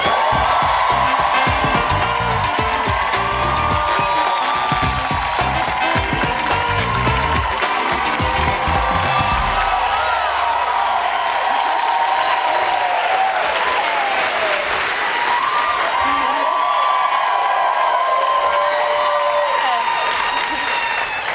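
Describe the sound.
A late-night comedy show's studio audience cheers and applauds to welcome an actor as guest: long, loud, unbroken clapping with whoops and shouts rising through it for the whole stretch.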